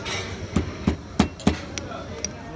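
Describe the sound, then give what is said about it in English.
Green cardamom is pounded in a small leaf-shaped granite pestle and mortar for masala chai at an Indian chai stall: four heavy, evenly spaced thuds, then a couple of lighter taps. “Next, he grabs a small leaf-shaped granite pestle and mortar to grind up some green cardamom and throws it into the pot.”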